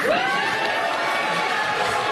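A political audience cheers and claps in a steady crowd roar. A rising whoop or whistle stands out at the start, then the noise continues at a moderate, even level.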